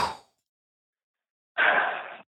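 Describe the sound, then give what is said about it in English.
A long exhale after holding a deep breath: one steady, breathy rush of air lasting under a second that stands alone after a silent pause, with only a faint trace of sound at the very start. “Hold it for one, two, three. Exhale.”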